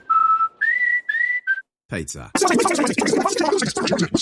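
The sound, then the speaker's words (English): A radio ad for pizza played back at high speed: squeaky, whistle-like voice tones give way to dense, garbled chatter that races along with only brief pauses. “Hey, that sound you just heard was this ad at Superloop speed.”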